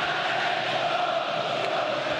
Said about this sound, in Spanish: Y este es el grito del público de Argentinos Juniors, que explota en la Paternal, en el estadio Diego Armando Maradona